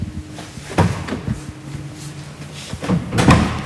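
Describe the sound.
A car boot lid is unlatched and opened with a few sharp clunks and latch clicks. A louder knock and rustle follow near the end.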